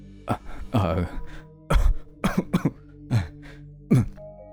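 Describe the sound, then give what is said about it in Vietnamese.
A man coughing hard while clutching his chest: harsh, throaty coughs in repeated bursts, some in quick clusters, with short gaps between them. “Anh ôm ngực ho sù sụ.”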